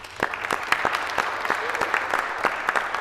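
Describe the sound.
A small audience at a lay theology conference applauds to welcome a speaker, a light patter of distinct, fairly sparse claps held at an even level.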